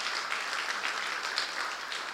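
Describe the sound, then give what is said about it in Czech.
An audience applauds at a Sunday gathering, a dense, even wash of many hands clapping at steady loudness throughout, with no voices standing out. “Ještě jednou velký potlesk”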